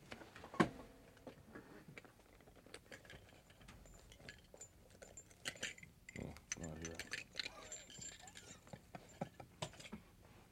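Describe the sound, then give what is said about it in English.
A spark plug wrench is handled, giving faint, irregular metallic ticks, clicks and ratcheting rattles in a scattered series, with a brief spoken voice among them. “so kind of stuck with the spark plug wrench. Did you bring one of them with you? Oh, yeah. Can you show us how it sounds? Sure. Let me dig it out here.”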